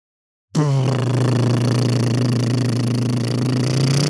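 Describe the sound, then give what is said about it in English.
A voice imitates a drum roll with a steady, buzzing lip trill that sounds like a motorboat engine. It starts abruptly and holds at an even pitch and loudness for about three and a half seconds. “The band name this week is... Can you do me a drum roll?”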